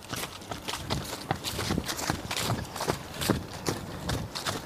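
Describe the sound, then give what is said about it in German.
Footsteps of two people jogging at an easy, relaxed pace: a steady, faint stream of many soft thuds in an uneven overlapping rhythm. “Und wir joggen ganz entspannt los.”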